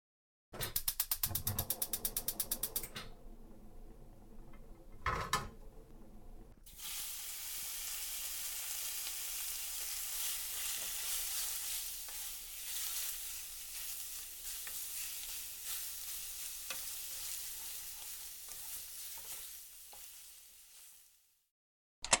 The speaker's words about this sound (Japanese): 料理を始めてしまいますね。オムライスで構いませんよね。